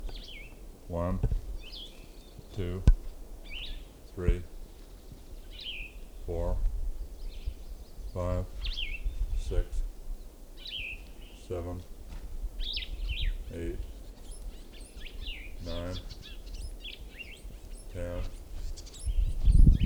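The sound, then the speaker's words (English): Bird calls in the background of an outdoor field recording near a female bird: many short, high chirps and chatter notes scattered throughout, while a voice speaks brief words at a steady, regular pace over them. “Another bird in the background.”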